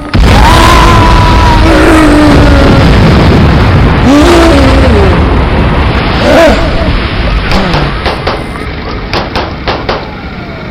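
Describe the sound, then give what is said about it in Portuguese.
A giant tank set on fire explodes in a loud, sustained roaring blast with rumbling booms, giving way to a run of sharp crackling pops toward the end, while voices call out over the din. “Tacar fogo em quê? No tanque gigante. Já vi que só explodiu. Oi! Explodiu o quê? Aquele tanque ali?”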